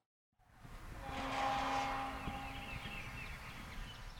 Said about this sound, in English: is driving down a gravel road between rows and rows of perfectly spaced pecan trees